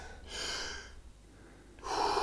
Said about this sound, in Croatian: Bez pauze između udaha i izdaha. Udišemo mir, izdišemo stres.